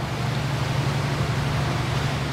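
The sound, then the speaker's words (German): Steady diesel drone of a long, narrow river boat on the Mekong, 30 metres long and 2.5 metres wide, running at full throttle upstream against a strong current. The low, constant hum sits under broad, even noise with no breaks. “Der Diesel läuft auf vollen Touren, doch die Strömung wird jetzt immer stärker.”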